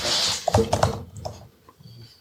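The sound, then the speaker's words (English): Typing on a device that has stopped taking input properly: a brief cluster of quick, light taps and clicks, fading into near quiet afterwards. “Why can't I type on this thing anymore?”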